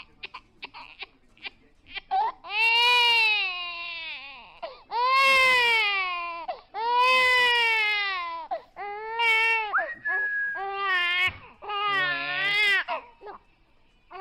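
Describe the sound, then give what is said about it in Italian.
Crying played as a joke: loud, high, wavering wails in a series of long sobbing bursts separated by short catches of breath, with no talk over them. “Abbiamo in esclusiva il pianto di Donnarumma quando gli hanno detto che Mihajlovic era stato esonerato. Lo abbiamo registrato noi di Antenna Radio S.”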